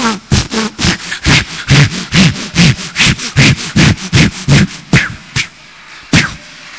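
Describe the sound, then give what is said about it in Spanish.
An imitation of a hand saw cutting through an iron pipe: many quick, rasping back-and-forth strokes in an even rhythm, loud and gritty, thinning to a few last strokes near the end. “Imitación de una sierra cortando una tubería de hierro.”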